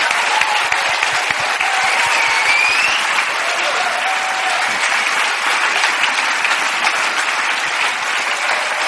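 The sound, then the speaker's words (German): A standing audience breaks into applause, dense, even clapping that stays loud and steady throughout, with some crowd noise mixed in. “can the rest of us stand up and can we give Jesus a good hand? Kann der Rest von uns Jesus einen Applaus geben?”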